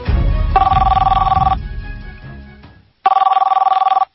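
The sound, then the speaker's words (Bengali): A telephone rings with an incoming call in two trilling bursts of a bright, pulsing bell tone, separated by a short gap of fainter low rumble and followed by silence. “এক সপ্তাহ না যেতেই মঞ্জিলার phone.”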